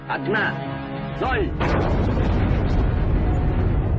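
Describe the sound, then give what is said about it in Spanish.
Deep, sustained rumbling roar from the Soviet 50-megaton atomic bomb detonated in October 1961, swelling abruptly partway through and continuing as loud, dense, low-heavy noise to the end after a quieter tonal opening. “Los soviéticos detonan la bomba más potente de la historia.”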